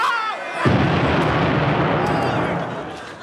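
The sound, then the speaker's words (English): A landmine explosion bursts in with a deep, heavy boom and turns into a loud, broad roar that sustains and slowly fades. “What was that? Too heavy for a bomb. I think it was a landmine, sir.”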